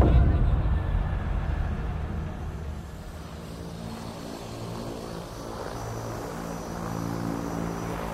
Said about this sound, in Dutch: Op donderdag 14 april 1994 landt er een C-130 van het Belgisch leger op de luchthaven van Nelsbroek.